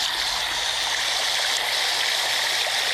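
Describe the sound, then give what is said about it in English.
Water pours over the top of a beaver dam, a steady, continuous rushing and splashing that stays even throughout with no voices. “the water coming over the top of the beaver dam.”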